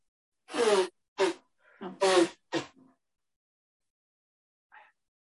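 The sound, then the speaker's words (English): A person sneezing: a couple of loud, sharp, breathy bursts with short voiced snorts and gasps between them, then quiet with one faint brief sound near the end. “there's a sneeze in there, sorry.”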